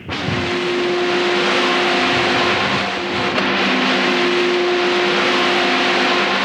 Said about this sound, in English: These high-powered pumps are taking crude that wanders in at about 100 pounds of pressure and whipping it up to nearly 1,000 pounds per square inch